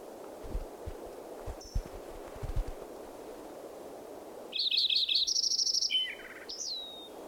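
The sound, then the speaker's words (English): Fox sparrow song: a bright run of whistled, warbling notes lasting about a second and a half, then a brief higher note. Steady background hiss runs throughout, with a few soft low thumps earlier. “Fox Sparrow mixed in.”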